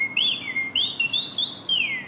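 Outdoors, a bird sings a run of high, clear whistled chirps in several quick phrases that swoop up and down, with a steady faint background and no voices.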